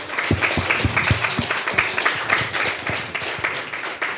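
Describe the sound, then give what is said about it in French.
Audience clapping in an ovation for the women who did the catering, with many hand claps forming a steady, fairly even applause at moderate loudness. “Franchement, vous pouvez leur faire une grosse ovation parce que c'est vraiment top.”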